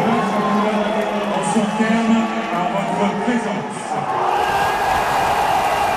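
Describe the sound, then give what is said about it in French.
A tennis crowd of about 5,000 screams and cheers on the Central court at Roland-Garros near 11 pm, a dense, continuous roar with voices over it. “Le Central de Roland-Garros n'est plus qu'un cri, incontrôlé, exutoire, comme si les spectateurs évacuaient la frustration accumulée depuis des mois.”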